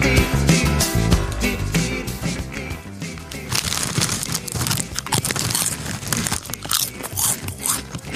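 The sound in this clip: Someone eats seasoned crisps with loud, dense crunching and chewing that goes on without a break, along with some crinkling.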